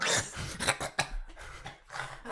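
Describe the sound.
A person coughing with something caught in the throat: a few harsh, abrupt coughs and throat-clearing bursts at moderate loudness, with no words.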